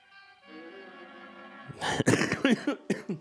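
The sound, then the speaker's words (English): Coughing from someone who has just choked: a rapid burst of several harsh, loud coughs after a quieter, steady opening. “Excuse me. That made me choke.”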